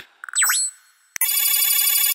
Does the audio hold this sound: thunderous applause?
no